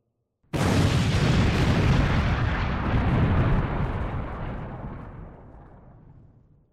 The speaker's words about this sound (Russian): Взрыв мигом погасил факелы и опрокинул все, что до этого стояло торчком, за исключением одних только каменных колонн, подпиравших потолок.